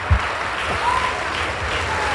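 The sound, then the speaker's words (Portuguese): A church audience applauding during a worship service: sustained clapping at a steady, moderate level throughout, with a brief low thump near the start. “E vamos aplaudir mais e mais ao nome de Jesus.”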